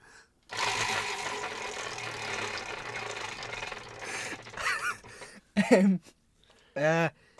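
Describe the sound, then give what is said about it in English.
A prize wheel spins with rapid, continuous mechanical clicking that lasts about five seconds and then stops, followed by two short vocal outbursts. “I spun the wheel and you... Okay, I'll spin it again. Here we go.”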